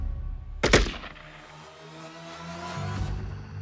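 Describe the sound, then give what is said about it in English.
Gunfire on a hillside during a soldier's execution: a loud, sharp crack bursts out near the start, then fades into a low rumble over steady background noise. “Almost immediately, two clear shots rang out.”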